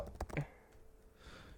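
Computer keyboard keys tapped while typing a search for a target practice video, a short quick run of faint clicks early on, followed by near quiet.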